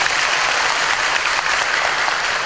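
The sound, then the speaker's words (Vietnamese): Steady, dense applause from an audience welcoming university and school students to an event, with continuous clapping that holds at an even, loud level for the whole stretch and no talk. “Chúng ta cho một tràng pháo tay đón chào.”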